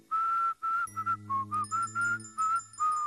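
A large man whistles a tune, a bright, steady melody in short phrases with brief gaps between them. A low hum runs beneath the middle of the passage, and no one speaks.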